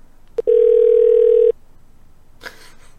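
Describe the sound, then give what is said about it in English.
Telephone tone heard while calling someone: a short blip, then one steady, loud, single-pitched tone lasting about a second, followed by quiet and a faint brief rustle. “let me try Kathy. Maybe Kathy will pick up.”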